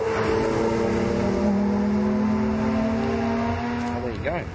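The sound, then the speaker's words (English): Porsche race car engines as one Porsche overtakes another on a track: a steady, droning engine note holds for several seconds, then the pitch climbs sharply near the end as a car passes. “Oh, a Porsche being overtaken by another Porsche.”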